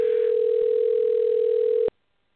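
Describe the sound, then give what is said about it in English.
A telephone dial tone while a number is being called: a single steady, loud, unbroken tone lasting about two seconds that stops abruptly into silence. “Hey, I'm dialing the right number.”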